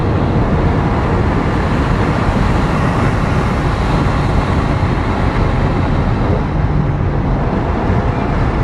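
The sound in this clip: Engine and road noise fill a car's cabin as it accelerates along a straight, a loud, steady, low rumble that holds at the same level throughout.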